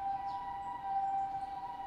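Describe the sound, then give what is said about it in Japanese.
An older-style ambulance siren in Japan sounds faintly as one steady, sustained high tone that holds nearly level throughout, with no voices. “救急車やね、”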